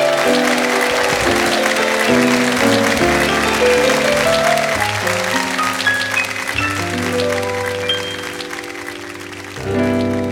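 Audience applause welcoming a musical theatre performer onto a stage: sustained clapping over a band playing steady chords, easing near the end as the music carries on.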